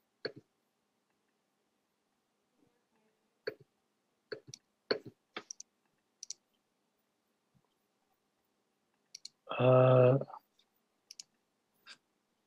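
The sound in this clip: Computer mouse clicks, sharp and quiet, land irregularly in single clicks and small bursts against near silence, with a short voice heard between them.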